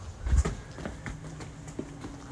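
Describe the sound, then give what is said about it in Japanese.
Footsteps going down a stairwell from the fifth floor of a building with no elevator, heard as a few irregular soft thuds and scuffs, the first one heavier than the rest. “5階からあれやな、エレベーターないから。よいしょ。階段で毎日降りる日々です。”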